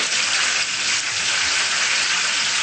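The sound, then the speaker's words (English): Hot oil sizzles steadily in a pan after the heat has been turned down from a boil, a loud, dense, hissing crackle that stays even throughout. “After the oil is already boiled, you turn it lower like that.”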